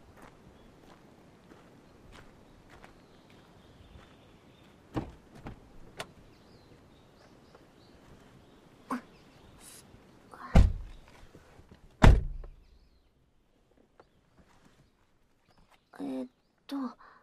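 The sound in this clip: A car's power sliding door runs and shuts over low background noise, with a few sharp knocks followed by two louder thunks near the end.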